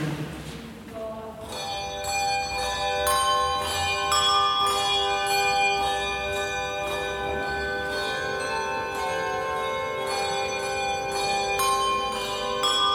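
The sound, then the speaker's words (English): A handbell ringing group plays tunes: many overlapping, shimmering bell tones rung in a steady stream, sustained and moderately loud, following a brief softer sound at the very start. “Here is the leader of the modern handbell ringing group”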